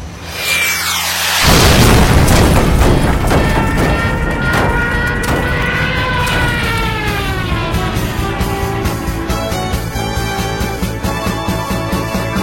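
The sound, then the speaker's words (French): A loud boom as a plane's jet engine is hit and explodes, then a sustained roaring rumble with whining engine tones that carries on steadily to the end. “Ça secoue Qu'est-ce que c'était Je crois qu'un de nos réacteurs est touché.”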